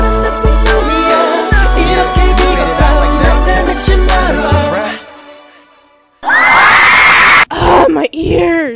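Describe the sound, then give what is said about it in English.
Fans scream loudly for a Korean pop group's comeback, a piercing crowd roar that bursts in after a pop track with a thumping beat fades out, with brief breaks in the shrieking near the end. “Those screams can only mean... That's right, bitches. DBSK is back.”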